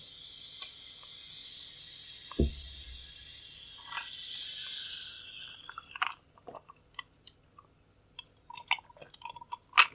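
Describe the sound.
Chewing and eating food, with scattered short crunches and mouth clicks that grow busier toward the end over a faint steady hiss, plus one low thump early on; no talking.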